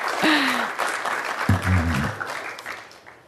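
Applause from a live audience welcoming a guest at the Commonwealth Club, a dense, steady clatter of many hands that slowly fades toward the end.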